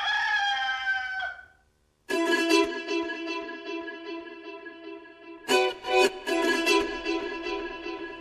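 A rooster crows loudly in a strident, harmonic-rich call, then after a brief silence crows again in a long, raspy stretch with rough surging bursts partway through.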